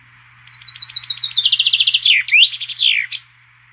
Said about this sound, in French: Et tout de suite, je partage avec vous le chant du pinson.